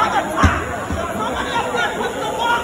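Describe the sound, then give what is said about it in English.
Crowd chatter in a shopping mall on Staten Island, recorded on video as a boy's foot was caught in a down escalator: a steady babble of voices with a brief thump near the start. “That is the sound of video from the Advance showing what happened back in April when the boy's foot got stuck in a down escalator at the Staten Island Mall.”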